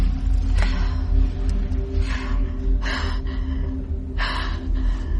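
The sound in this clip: Hard, heavy breathing from a woman in a night-time film scene: a few rough, airy breaths rising over a steady low hum, with no talk.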